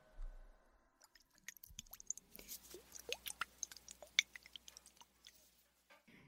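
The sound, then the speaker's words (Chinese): Soft, wet squishing and rubbing from an ASMR ear massage, with many quick irregular taps and squelches. Faint and close, with no talking. “接下来就像之前一样，让我给老公你按摩一下耳朵吧。”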